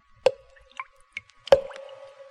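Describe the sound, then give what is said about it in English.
Dripping blood sound effect: two loud, resonant plops with a ringing tail, separated by a few faint smaller drips, heard alone. “The sound you hear is dripping blood.”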